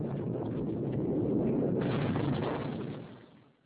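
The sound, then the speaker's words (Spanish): An explosion bursts out as a deep, broad roaring rumble. It swells partway through, holds for about three seconds, then fades quickly. “¿Y por qué tuvo que explotar tan pronto?”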